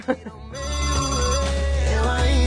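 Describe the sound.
Telephone ringing for an incoming call, a loud, continuous buzzing ring rich in harmonics that holds steady to the end after a couple of brief knocks at the start.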